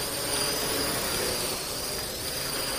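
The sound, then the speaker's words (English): A quadcopter drone flies on a programmed flight path over a North Canterbury vineyard, giving a steady, even whirring hum with a thin, high whine on top. The level stays constant throughout, with no talk. “Programming a flight path for a drone, and then this.”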